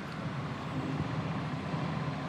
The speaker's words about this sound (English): We're on my bus right now.